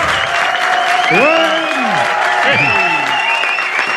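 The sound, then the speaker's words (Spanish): A studio audience at a live radio show in Valencia applauds and cheers. Steady, loud clapping fills the whole stretch, and bright rising and falling whoops and whistles ride over it. “Así, ese entusiasmo del público que nos acompaña.”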